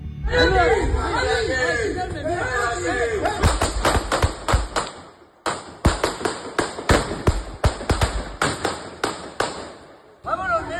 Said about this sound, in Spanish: La Asociación Unificada de la Guardia Civil ha publicado un vídeo en la red social X, grabado por un vecino de la zona, en el que se ve cómo los agresores disparan contra esos agentes.